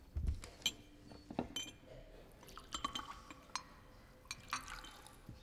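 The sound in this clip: Aquavit is poured from a bottle, a faint trickle of liquid with a few small drips and light glassy clinks spread across a quiet background.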